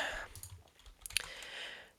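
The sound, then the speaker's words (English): Faint typing on a computer keyboard, a few quick light key clicks over a quiet background. “Let me just type that.”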